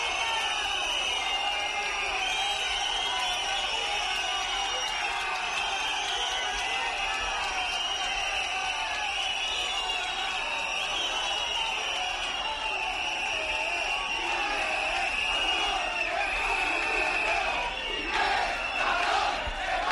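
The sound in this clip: Football fans at the Ciudad del Fútbol in Las Rozas cheer and shout as Gerard Piqué steps onto the pitch, producing a sustained, loud roar of many voices with whoops and rising bursts near the end.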